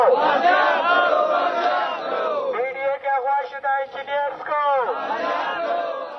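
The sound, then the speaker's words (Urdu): Protesters chant slogans outside the press club in Quetta: relatives and development-authority employees demanding the recovery of kidnapped staff. Loud, massed voices chant in rhythmic, clipped bursts, then return to a longer sustained chant. “Balochistan development authority کے اغوا ہونے والے 5 ملازمین اور ٹھیکیدار کی بازیابی کے لیے press club کے باہر ان کے رشتہ داروں اور بی ڈی اے کے دیگر ملازمین نے نعرے بازی کی۔”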